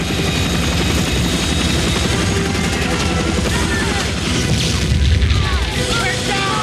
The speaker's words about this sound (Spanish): Los helicópteros tocan tierra dando botes y los soldados salen corriendo en todas direcciones para lanzarse al suelo en medio del polvo y las balas norvietnamitas que les llueven.